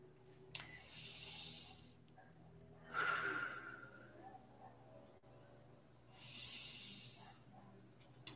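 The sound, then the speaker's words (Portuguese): Deep breathing: a few slow, airy, hissing breaths, faint and spaced several seconds apart, with quiet stillness between them and a sharp tick at the start and end. “Mão na cintura, respira fundo, sorria.”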